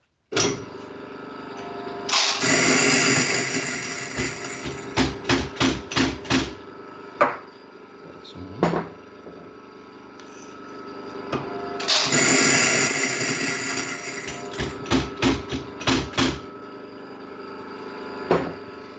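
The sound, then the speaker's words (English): An EK43 coffee grinder, set to 7, grinds coffee beans in two loud whirring bursts over a constant motor hum. Sharp knocks and taps fall between and after each burst. “So I'm going to grind now. So apologies about the noise, but I feel it should be on for authenticity.”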